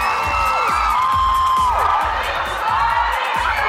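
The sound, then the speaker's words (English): Excited fans cheer after a concert in Gateshead, a dense continuous roar of many voices with whoops and high shrieks cutting through throughout. “Hundreds of excited fans cheered for the 58-year-old after a concert last night in Gateshead.”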